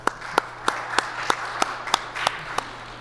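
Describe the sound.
A church audience claps to welcome a new music director, with about nine even, rhythmic claps at a steady moderate pace over faint background noise.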